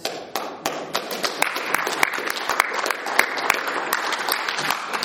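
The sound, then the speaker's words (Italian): Audience applause: a dense, steady wash of many hands clapping, with a few sharper individual claps standing out at the start and scattered throughout, carrying on at an even level for the whole stretch. “Ricevo sempre un applauso”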